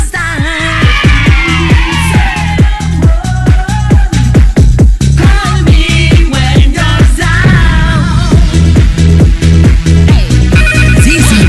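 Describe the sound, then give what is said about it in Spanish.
A loud musical phone ringtone plays for an incoming call. A steady pulsing beat runs under bright melodic tones, continuous throughout with no pauses. “Cada vez que hay una llamada tengo que despedir.”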